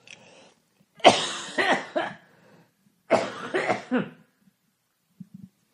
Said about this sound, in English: I'm going to try to talk through the coughs.